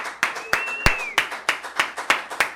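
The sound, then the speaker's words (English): Audience applause at a downtown art gallery event, heard as a series of sharp, evenly spaced bursts of clapping, about ten in quick rhythm, moderately loud, with no one talking. “Let's give a round of applause to Carlos”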